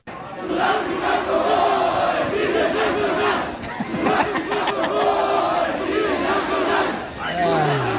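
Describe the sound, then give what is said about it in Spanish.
A stadium crowd chants after a football match at Estadio Ciudad de México, a dense, loud mass of voices singing in unison and holding steady throughout with only brief dips. “Esto se escuchó en el Estadio Ciudad de México, posterior al encuentro.”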